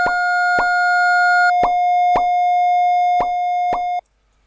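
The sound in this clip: Audio graph sonification: a steady electronic tone traces one graph while six short percussive plops mark the points where it intersects a second graph. A higher tone drops out partway through, and the main tone stops abruptly before the end.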